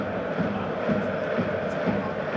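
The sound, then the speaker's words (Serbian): Football crowd atmosphere in a nearly full north stand at a Red Star match, a continuous, rumbling roar of many voices blended together without clear peaks. “Čujete kakva je atmosfera na tribinama, sever gotovo popunjen.”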